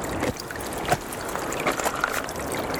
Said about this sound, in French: c'est la neige qui fond, l'eau qui se fraye en chemin,